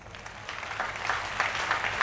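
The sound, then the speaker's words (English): An audience applauding before a prayer at a church service: a steady wash of many hands clapping that swells slightly in loudness over two seconds, with no voices. “You know, it's wonderful when you clap before the prayer.”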